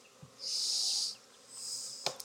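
Honey bees buzz at a long Langstroth hive in two sustained bursts of thin, high-pitched buzzing separated by a short gap, with a few faint clicks near the end.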